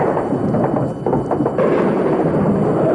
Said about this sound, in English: Missile away!